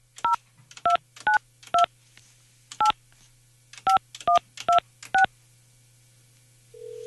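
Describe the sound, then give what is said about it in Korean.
Telephone keypad tones as a number is dialed to call someone: nine short, clear beeps in an uneven rhythm over a faint steady hum, followed by the start of a low continuous tone. “이 시어머니 제가 지금 전화번호가 있으니까 시어머니 한번 제가 전화 한번 해볼게요. 전화를 받으실 수 있으려나.”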